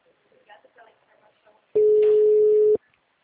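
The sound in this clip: Phone call to a number that does not answer: after soft, murmured speech, a single steady electronic call tone sounds for about a second and then stops.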